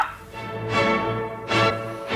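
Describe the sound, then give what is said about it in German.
A person imitates a dog barking, giving a few loud, voiced, bark-like calls separated by short pauses, with no other talk. “Welche Tierlaute können Sie nachahmen, durchlaucht? Von der Katze? Bellen Sie doch einmal.”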